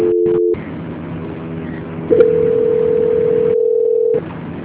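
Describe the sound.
Telephone tone during a call transfer: a few short electronic beeps, then a loud, steady single-pitch tone held for about two seconds before cutting off.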